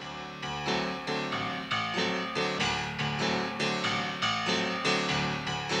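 An upbeat honky-tonk song with a bouncy 1970s sitcom-theme feel, driven by many evenly spaced chord strikes in a steady, regular rhythm, each ringing briefly before the next, with no voices.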